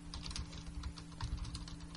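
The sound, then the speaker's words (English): Typing on a computer keyboard: many rapid, light key clicks in an uneven stream, fairly faint over a low steady electrical hum. “So, typing. I'm putting up the post that says ex-military is also in discussion for best album.”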